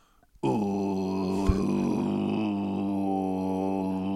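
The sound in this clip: Throat-singing drone imitating a didgeridoo: one sustained low buzzing tone with rich overtones. It starts after a brief quiet moment and holds steady to the end, with one short click partway through.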